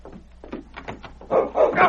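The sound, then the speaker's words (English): A large dog barks as it charges in a dramatized scene. A rapid run of short barks and yips grows louder and harsher toward the end. “Mary and a posse were right outside the door with King. Pete was knocked off balance by the great dog's charge.”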